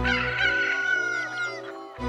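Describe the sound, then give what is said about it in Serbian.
A rooster gives one long, loud crow of about two seconds. The call is rich in harmonics, holds steady and then tapers off, heard alone with no talking. “Petao kukuriknu,”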